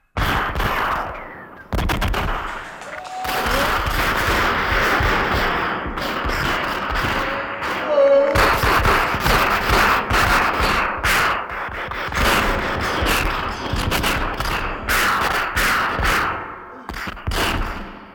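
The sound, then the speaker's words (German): A heavy exchange of gunfire at a house surrounded by police, dense bursts of machine-gun fire and sharp cracking shots rattling almost continuously and loudly, with short gaps near the start and end. “Es kam, wie Sie soeben gehört haben, zu einem heftigen Schusswechsel.”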